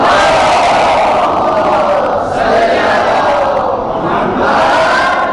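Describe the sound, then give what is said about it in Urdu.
Crowd at a religious gathering honouring Ali on the Night of Qadr loudly shouting the slogan Naara-e-Haidari in unison, a powerful sustained roar that dips briefly a couple of times before swelling again. “نعرہ حیدری.”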